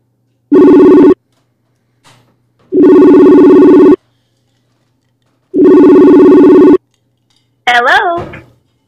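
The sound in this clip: A telephone ringing on an outgoing call to a guest: three long, loud buzzing rings separated by pauses, followed by a brief voice as the line is answered.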